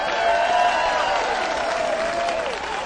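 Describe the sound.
Dense applause with some cheering from a live audience greets a vocal group arriving on stage. The clapping is a steady, continuous clatter that eases slightly at the end.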